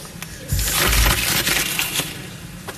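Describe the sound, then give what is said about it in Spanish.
A sheet of paper is crumpled into a ball and thrown to the floor of the Cortes chamber: dry, crinkly crackles and rustles that thicken into a dense burst, then thin out into a few scattered crackles. “Entonces Mañueco, como han escuchado, arrugó el papel y lo tiró al suelo del hemiciclo de las Cortes.”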